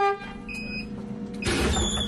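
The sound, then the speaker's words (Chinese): A bus drives slowly along a winding mountain road with a steady low engine rumble. Brief horn toots sound over it, and a louder burst of noise comes near the end. “汽车沿着蜿蜒山路缓缓向着横渡中心学校驶去”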